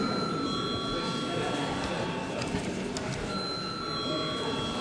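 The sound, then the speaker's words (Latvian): An electric bell rings in a parliament chamber just before a vote on a bill. It gives a steady, fairly faint ringing tone that thins briefly midway, then returns. “Lūdzu zvanu.”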